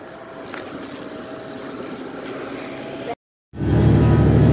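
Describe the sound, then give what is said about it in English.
A city bus arrives with a steady engine rumble and broad road noise. After a brief dropout to silence, a louder, bass-heavy rumble returns. “Here comes the bus! Here comes the bus! Here comes the bus! Whoa, the bus! It's here!”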